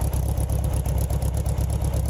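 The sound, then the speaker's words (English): A classic air-cooled VW Beetle engine, in a car converted to a Meyers Manx dune buggy, runs with a steady low rumble and a quick, even pulsing throb throughout. “That's an air-cooled engine on a classic VW Bug that's been converted to a Max Myers dune buggy.”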